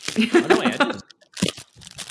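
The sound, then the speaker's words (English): Tearing of a folded gift wrapper: crinkly paper rustling, then after a short pause a brief burst of crunchy ripping and crumpling. “Can I tear it? Yeah, just tear it. Yeah, tear it.”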